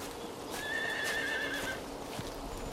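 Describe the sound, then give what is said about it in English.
A horse whinnies in one long, high call as guards ride past on horseback with a carriage laden with chests, hooves clip-clopping steadily underneath and continuing after the whinny fades. “Isabella and a line of guards ride past, a carriage laden with chests at the rear.”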